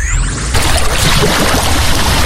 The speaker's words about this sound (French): Fermez les yeux, vous entendez la mer, le vent doux sur la peau et les mains de Frédéric